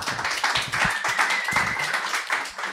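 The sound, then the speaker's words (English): Audience applause at a live tennis tournament panel event: dense, steady clapping that runs at an even level for a few seconds and eases slightly at the end. “So, first of all, round of applause for that,”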